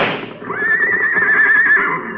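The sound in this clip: A racehorse neighs after being shot, one loud, sustained whinny with a wavering, high-pitched tone lasting well over a second, heard alone.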